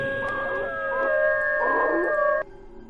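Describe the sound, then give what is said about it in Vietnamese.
A pack of dogs howls in long, wavering, overlapping cries that hold steady for over two seconds before cutting off abruptly near the end. “Nói đoạn, bầy chó chu lên từng hồi.”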